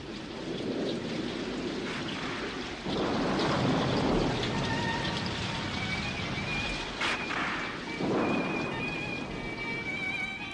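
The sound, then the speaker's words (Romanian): Rain falling on drought-parched land in Sicily, a steady dense hiss of a downpour with low rumbles of thunder that swell louder twice, no voices over it. “Da, da, a început ploaia.”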